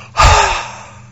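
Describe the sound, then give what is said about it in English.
One loud, breathy exhale rushes out sharply, then fades into a soft, airy tail over about a second. “Can you hear the breath? Makes a sound.”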